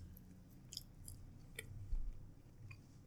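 Chewing on a smoky beef treat that resembles a dog treat, heard as quiet crunchy bites and soft mouth sounds with a few crisp, irregular crackles and no talking.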